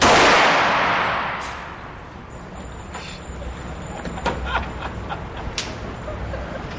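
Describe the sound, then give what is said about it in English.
A first gunshot fired by a new shooter: a loud blast at the very start that fades into a long rumbling tail, followed by faint clicks and rattles. “About to fire his first shot here.”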